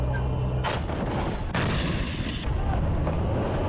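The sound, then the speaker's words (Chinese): Live-fire artillery shooting during a military exercise, with vehicle crews engaging fixed and moving targets: a few heavy, dull booms over a continuous loud rumbling roar. “抵达阵地，实弹射击即刻展开，演练模拟真实战场”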